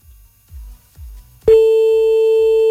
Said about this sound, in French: Allez, on rappelle encore un petit coup là. J'espère qu'on va pas déranger, hein.